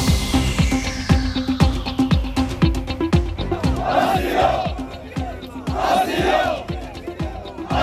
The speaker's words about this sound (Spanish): Es el sonido de ayer de cientos de personas, de migrantes que protestaban en la playa del Trampolín en Ceuta para pedir asilo